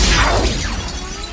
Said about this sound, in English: He turns as the new Bolt bursts through a window.